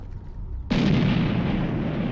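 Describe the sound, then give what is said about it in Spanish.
Artillery fire in an attack on Soviet positions: after a low rumble, a sudden loud blast breaks in and becomes a heavy, sustained roar that holds to the end. “El 2 de octubre, la Operación Tifón comienza con un ataque de artillería contra las posiciones soviéticas.”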